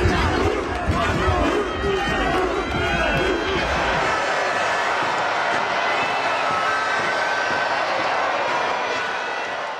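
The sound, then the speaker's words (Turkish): A crowd celebrates Spain's World Cup win in Madrid. A loud roar of cheering voices fills the first few seconds, then thins to a softer, steady wash of crowd noise. “İspanya'nın şampiyonluğu Madrid'de coşkuyla kutlandı.”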